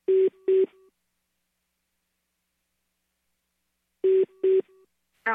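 Telephone keypad tones as a number is dialed on a phone: two short clusters of two or three quick beeps each, separated by a long silence, followed by a brief harmonic tone at the end.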